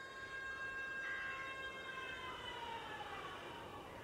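A faint six o'clock siren holds a steady wailing tone with layered harmonics, its pitch sliding gently downward in the second half over a soft background hiss.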